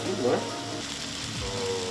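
Chicken mixed with spice paste and long beans frying in a pan as it is stirred, a steady, fairly quiet hiss and sizzle with soft scraping.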